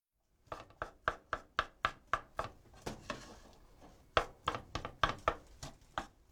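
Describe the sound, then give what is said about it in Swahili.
A wooden spatula separating rice and mixing it with other ingredients in a pan: many quick, regular knocking strikes against the pan in a steady rhythm, with a brief pause midway. “Baada ya hapo, epua na uongeze wali. Tumia mwiko kutenganisha wali na uchanganye na viambato vingine.”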